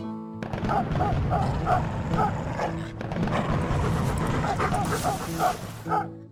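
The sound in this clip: A dog barking in many short, sharp barks and higher yips in a busy, repeating pattern over a steady background din.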